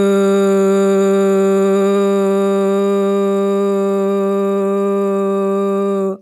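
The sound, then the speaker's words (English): A deep, low voiced "voo" hum made during a vagus-nerve breathing exercise: one long, steady, buzzy tone held for about six seconds before it stops abruptly. “So you breathe low and slow and make a deep VU sound”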